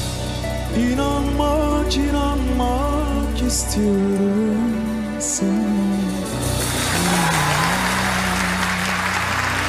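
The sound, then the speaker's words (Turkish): Audience applause at a Turkish concert, rising into dense, sustained clapping as a sung note and its accompaniment fade out. “çok teşekkür ederim. O güzel alkışlarınız için.”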